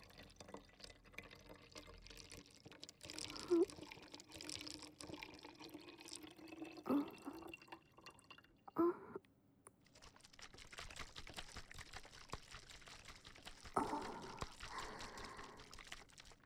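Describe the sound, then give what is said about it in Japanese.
Water pouring and trickling while a cleaning solution is mixed, a faint continuous flow broken by a few louder splashes and clicks. “先ほどと同じ分量で、洗浄液をまずは作って。”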